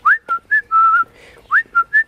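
A person whistles a signal call by a hedge under a tree below a window: seven clear, loud notes in two phrases. Several notes slide quickly upward, and the first phrase ends on a long held tone.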